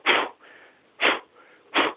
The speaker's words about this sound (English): You hold up your index finger and you blow it out like you're blowing out a candle.